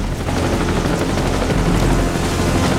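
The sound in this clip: A helicopter in a rainy jungle clearing, its rotors and engine giving a loud, unbroken roar and wash of noise throughout.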